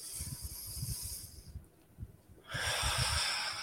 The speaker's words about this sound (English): And everyone take a deep breath in this moment.